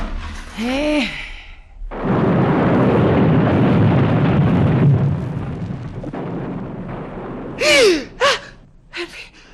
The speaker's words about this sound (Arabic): سامع سامع ايه ده؟ انفجارات.